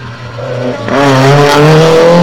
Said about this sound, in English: Here we got the, what is it, BMW 2002, TII.